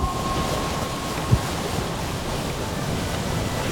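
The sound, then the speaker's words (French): Water and wind wash steadily around a submarine sailing on the surface among ice, a continuous broad rush broken once by a brief low thump near the middle. “Le Nautilus navigue à la surface de l'eau.”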